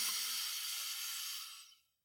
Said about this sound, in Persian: بیایید با چند تا نفس عمیق شروع کنیم. موافقید؟ از راه بینی زیبا و کوچولوتون هوای اتاق رو بکشید توی ریه‌هاتون لطفاً